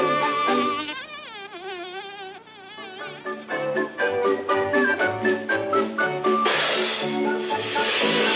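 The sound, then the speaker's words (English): Insect-like buzzing from a handmade lathe-turned sound prop, blown by mouth while the fingers work over it, producing a continuous wavering, warbling drone whose pitch shifts constantly before the tone thickens near the end. “And I turned this out on the lathe in my shop. And for little bugs, it's you just blow in it and work your fingers.”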